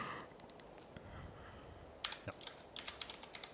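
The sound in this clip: Soft typing on a computer keyboard as notes are entered, with scattered keystrokes at first, then a quicker, denser run of clicks in the second half.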